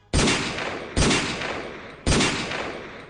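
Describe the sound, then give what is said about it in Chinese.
Gunfire from a pursuing truck: three loud, sharp shots, roughly one second apart, each followed by a decaying tail. “后面货车上的人已经开枪了”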